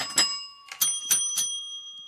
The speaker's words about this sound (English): A garland and some bells. And, oh, some bells. Not nearly as good as... Oh, bells.